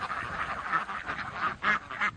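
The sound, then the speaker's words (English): Ducks quack while they forage for pests between the rows of a vineyard. Many short, nasal quacks overlap in an uneven rhythm, fairly faint and with no talk. “The ducks typically patrol the vineyards between 9 in the morning and midday.”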